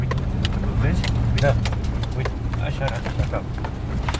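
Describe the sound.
A car accelerates at night on a road past dry cornfields. The low engine drone holds steady and fairly loud throughout, with people talking over it.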